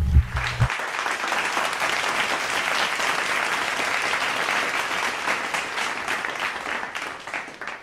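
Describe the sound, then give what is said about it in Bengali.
Applause from a group for contestants on a music show, a steady, even patter of many hands that begins after a short low tone and fades out near the end. “তাহলে কি দিতে হবে? হাততালি। হাততালি।”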